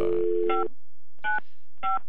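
Touch-tone keypad beeps as a telephone number is dialed to a Chevrolet dealership, three short clear two-tone bursts with pauses between them, the first riding over a steady tone.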